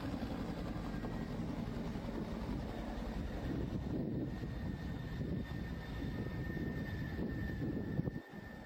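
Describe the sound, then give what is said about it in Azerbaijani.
A helicopter lands beside a water reservoir dam, its engine and rotors a constant, low, rumbling drone throughout, with a brief thump near the end. “İran prezidenti Seyid İbrahim reisini daşıyan vertol yol Qız Qalası su bəndinin kənarında eniş etdi.”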